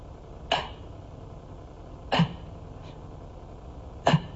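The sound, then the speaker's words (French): A voice imitates desperate gasping for breath: three short, harsh, rasping gulps of air spaced about two seconds apart, fairly faint. “I'll demonstrate to you. This is how you breathe in hell.”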